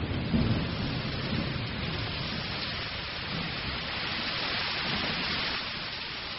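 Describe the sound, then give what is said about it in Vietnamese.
Heavy rain pours down during a thunderstorm in Saigon, with rumbling thunder mixed in. The dense, steady roar of the downpour is loud and continuous, with no voices. “Một tiếng nổ to làm tôi giật mình, làm cả căn nhà như rung lên. Một làn chớp xanh lè nháng lên làm sáng cả căn gác. Thế rồi như nước ở trên trời đổ xuống.”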